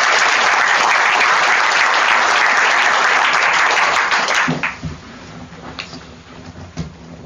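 Audience applause welcomes the guests at a book event on Australians and the First World War. It is loud and dense for about four and a half seconds, then dies away into a few scattered claps.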